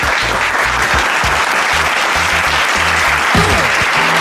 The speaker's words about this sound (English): And now, please give it up for your host, Big Lou.